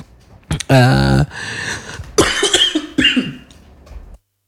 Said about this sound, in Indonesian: tiba-tiba batuk nih